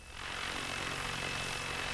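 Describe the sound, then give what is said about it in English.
A small unmanned camera helicopter drone buzzes overhead in flight. Its rotor and motor noise is a broad, continuous whir with a thin high whine, swelling in at the start and then holding level and fairly faint. “The chopper looks like a giant dragonfly when it's in the air. It buzzes around above us as Heumann tells it where to go.”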